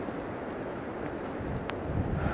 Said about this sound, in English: As I close this walk, the wind comes down.